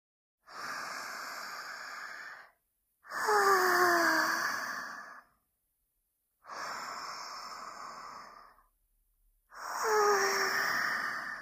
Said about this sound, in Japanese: それでは一緒に深呼吸をしましょう。